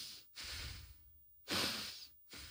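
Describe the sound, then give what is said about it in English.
Breathing in and out through the nose in a guided exercise: soft, airy nasal breaths alternate in a steady rhythm, three breathy phases separated by brief pauses, quiet and with no talking. “I want to just start by breathing in through the nose, out through the nose, and you're going to follow my lead.”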